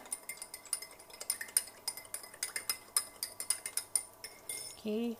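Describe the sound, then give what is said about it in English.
A spoon mixes soy sauce into a dish, clinking sharply against it in many quick, rhythmic strikes that come steadily one after another. “We're going to mix that up. Mix, mix, mix.”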